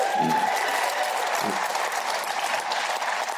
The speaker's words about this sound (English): we have a small audience tonight, but even with a small audience, only one-tenth of that audience applauded